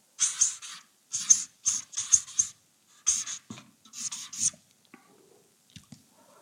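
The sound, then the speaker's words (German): A pen scratches out names on paper in many short, crisp bursts of writing strokes separated by brief pauses, then fades to a few faint taps near the end. “Ich schreibe diese Namen gleich mal auf.”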